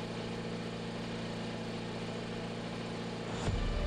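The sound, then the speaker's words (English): Engine drone of endurance race cars rolling in slowly during an FIA World Endurance Championship race at Circuit of the Americas, a steady low idling hum with a brief louder swell near the end. “a couple of cars coming in the 42 following around slowly at the moment is that of the Cool Racing Antonin Borga.”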